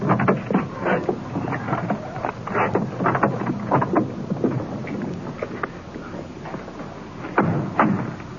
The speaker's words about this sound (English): Wind blowing across here tonight.